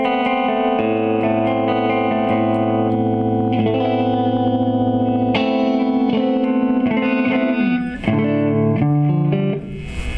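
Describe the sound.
Strat-style electric guitar on its five-position switch in the middle position, a slightly noisy instrument, rings out sustained, effects-laden chords with chorus and distortion, shifting to new chords several times without any talk.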